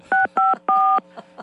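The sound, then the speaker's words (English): Telephone keypad dialing tones: three loud, clear dual-pitch beeps, the third held longest, then two faint, short blips. “Dial carefully. You can say it telephonically.”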